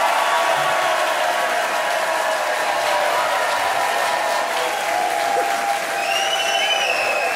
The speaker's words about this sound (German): Wo das überaus gut gelaunte Publikum sich offensichtlich freut,